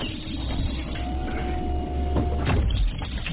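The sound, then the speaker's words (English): Mechanical whirring and grinding as a spacecraft hatch is closed and secured before a time-travel departure. A continuous low hum carries through, and a heavier clunk comes near the end. “Secure the hatch. Securing the hatch?”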